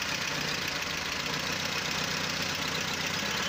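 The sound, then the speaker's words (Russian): A small car engine idles after its oil pressure has improved, running fairly evenly. It is a continuous, steady drone with a fine rapid pulsing texture and no breaks or stumbles, and no voices. “Давление масла заметно лучше стало. И вот как моторчик работает”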